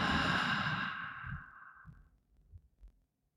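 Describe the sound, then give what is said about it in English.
A slow, deep breath taken in through the nose and out through the mouth during a sleep meditation, heard as a soft, airy rush that gradually fades over about two seconds, with no talk. “and taking a deeper breath in through the nose and out through the mouth.”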